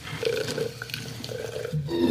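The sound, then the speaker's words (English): Monster Ultra Paradise energy drink pours into a cup with a quiet, fizzy gurgling and a few small bubbling pops. “listen to that thing pour into that cup.”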